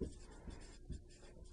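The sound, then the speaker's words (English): Faint scratchy strokes and soft taps of writing on a board during a maths lesson on compound interest, with a few short, quiet bursts of marking at an uneven pace. “So I put 2 here for now for semi-annually, and let me write that up here.”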